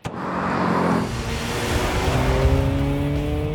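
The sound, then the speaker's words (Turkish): A car with a 1.6 engine revs hard on a test drive. A loud, continuous engine roar builds as the tonal engine note climbs steadily in pitch. “Bu 1.6 motor çok güzel devir alıyor ve küçük devir torku da iyi.”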